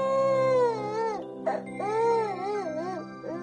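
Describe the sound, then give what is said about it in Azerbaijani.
A child weeping, a tremulous, wavering wail in two long sobbing phrases separated by a brief catch of breath, rising and dipping in pitch over a steady musical bed. “Təzəcə cırtdan sakitləşmişdi ki, nənə ağlamaq səsi eşidib soruşdu.”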